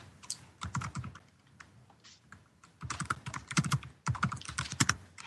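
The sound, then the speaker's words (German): Loud, rapid typing on a computer keyboard: many clattering keystrokes come in dense bursts with a quieter lull in the middle, and no voices are heard. “Wer tippt denn da so laut? Wer vergewaltigt da gerade seine Tastatur?”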